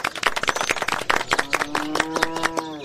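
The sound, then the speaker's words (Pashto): People clap their hands at a village gathering about a new cultural center. The claps are crisp and irregular, a few at a time, and a sustained voice joins them partway through. “وایم لاسونه ورته وپړکا وای.”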